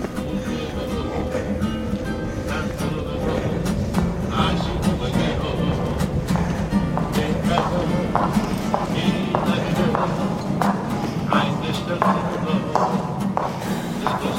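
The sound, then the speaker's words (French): High heels walk with a steady run of sharp, clicking footsteps, evenly paced throughout. “Vous entendez les talons, hein, les talons qui marchent, c'est les talons de ma fille.”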